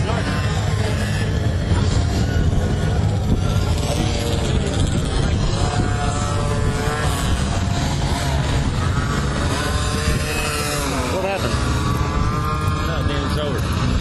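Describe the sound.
Small motorbikes ridden by racers in leathers and helmets buzz past in a continuous high, whining drone, engines revving up and down, loud throughout, with voices mixed in underneath.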